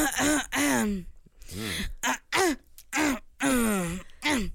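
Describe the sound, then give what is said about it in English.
A voice imitating an actress's annoying habitual throat noise, a run of short voiced throat-clearing grunts and groans with wavering pitch, separated by brief gaps. “Like that she does this annoying throat thing.”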